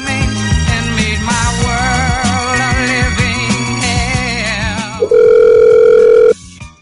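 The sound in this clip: Outgoing phone call while returning a call: a tinny melodic ringback tune plays for about five seconds, then a loud steady tone holds for just over a second before cutting off abruptly.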